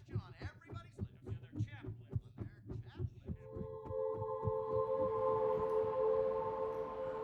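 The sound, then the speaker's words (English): A man sitting on a bed hears his own heartbeat: a steady run of quick, low thumping beats, then a sustained humming tone. “After that, he went back, sat on the bed, listened to the sound of his heartbeat.”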